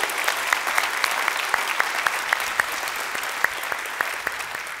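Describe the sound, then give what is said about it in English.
Applause from a church audience in the room, welcoming online viewers: steady clapping with many crisp individual claps standing out over the whole stretch. “So those of you who are in the room today, would you put your hands together and welcome in our online family as well?”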